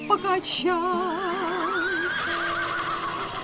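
A horse whinnies in one long, loud, quavering call. Its wavering pitch shakes up and down before the call trails off into a breathy tail.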